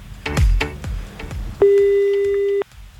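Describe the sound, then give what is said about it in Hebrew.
Telephone dialing a call: a few quick clicks and taps, then a single steady electronic tone that holds for about a second before cutting off cleanly. “הנה אנחנו מחייגים לאבא.”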